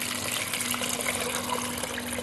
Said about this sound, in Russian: И теперь мы заливаем наши овощи водой.